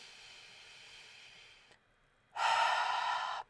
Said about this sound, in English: Take a deep breath. Seriously, people say it, but I need you to do it. Through the nose, in through the nose, out through the mouth